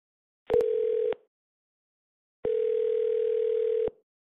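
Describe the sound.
Telephone tone after a call to a law firm is disconnected: two steady, single-pitched electronic tones, a short one and then a longer one, with no voices.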